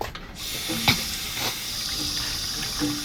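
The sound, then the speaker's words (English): Water running from a sink tap, a steady, even rush of hissing flow that continues without a break for the whole stretch, with no talk over it. “I need water stat. Yeah, of course. We have, like, a sink. A sink would be incredible.”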